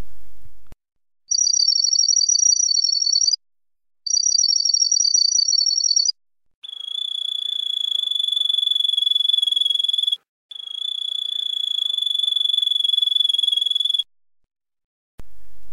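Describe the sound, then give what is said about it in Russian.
Canary song tour with bell-like trills: two rapid, high, pulsing trill phrases, then two longer sustained whistled phrases at a slightly lower pitch, with short silences between phrases. “Бубенцовые россыпи.”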